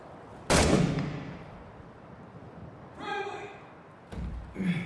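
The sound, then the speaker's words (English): Gunfire in the video game Six Days in Fallujah: two sharp, loud shots a few seconds apart, with people talking in the quieter stretch between and after them. “There, we're shooting from in here. Be careful.”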